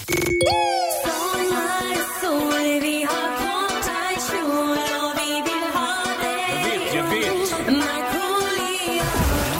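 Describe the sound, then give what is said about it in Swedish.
A short contest jingle of bright, ringing, bell-like tones forms a busy melody. It opens with a quick swooping tone and stays loud and steady for nearly ten seconds, with no voices. “Någon gång i de timmarna så spelar vi det lilla tävlingsljudet. Ska vi ta och tjuvlyssna? Ja. Det är alltså det här ljudet som du ska hålla utkik efter då.”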